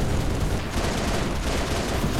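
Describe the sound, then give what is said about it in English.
Gunfire from enemy attackers in a video game: a dense, unbroken barrage of shots that stays loud and steady throughout, with no clear gaps between bursts. “No, I don't think we're clear, because they keep shooting.”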